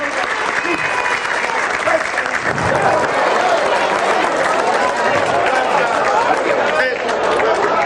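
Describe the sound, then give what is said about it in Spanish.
Loud, sustained applause from a crowd at a cultural news event honoring a longtime taxi driver, a steady dense clapping wash that stays constant throughout with faint cheering mixed in. “Un aplauso, Rubén.”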